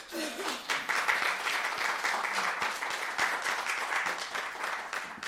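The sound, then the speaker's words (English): Warm audience applause welcomes an author to a book event. Dense, crisp clapping from a sizeable crowd builds quickly, then holds at a strong, even level throughout. “Now, please give a warm welcome to Leonard Pitts.”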